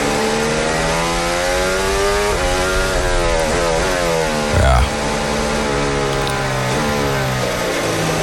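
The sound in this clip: Formula 1 car engine throttling on a track, a steady buzzing whine whose pitch climbs and drops repeatedly as the throttle is worked, loud and continuous throughout.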